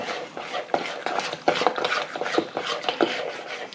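A utensil stirs eggs and a large amount of cheese together in a bowl for low-carb wraps. Many quick, uneven scraping and clinking strokes repeat in a loose rhythm, with no voices.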